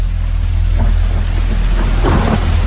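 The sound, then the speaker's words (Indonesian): Rain begins to fall under an overcast sky, a loud, steady wash of hissing drops joined by low, rolling rumbles of thunder that swell toward the end. “Air hujan mulai jatuh membasahi tempat itu.”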